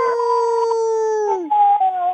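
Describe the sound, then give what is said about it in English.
People howling together in imitation of a wolf pack: a long, steady vocal howl that glides downward near its end, followed by a briefer second howl. “can we howl together? Because wolves have to howl in a pack, right?”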